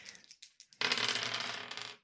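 Three dice are rolled for a stealth check in a tabletop game, with a few light clicks as they are handled, then a quick, bright rattle and clatter lasting just over a second before stopping.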